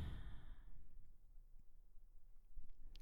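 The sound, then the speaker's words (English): Deep, noisy belly breathing during a yoga stretch: one loud, breathy exhale at the start, then much fainter breathing that trails off. “Couple more breaths, big bottom belly breaths. Make it noisy, make it deep.”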